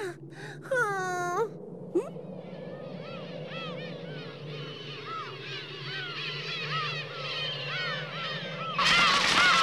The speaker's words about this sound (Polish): Ptaki. Co ich tak dużo? Co się stało?